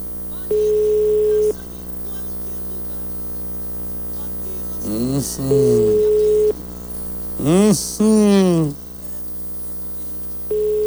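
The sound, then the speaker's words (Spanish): A telephone ringing tone on a line in Mexico sounds as long, steady, single-pitch beeps separated by pauses, over a constant mains hum, with a voice speaking between the beeps. “Ahí está dando tono.”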